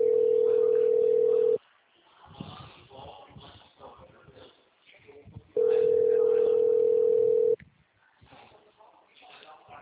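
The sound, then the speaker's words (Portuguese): A telephone tone sounds while a call is being placed: two long, loud, steady single-pitch tones of about two seconds each, with muffled voices and rustling noise in the gap between them. “Agora eu tô ligando, não tem o que fazer.”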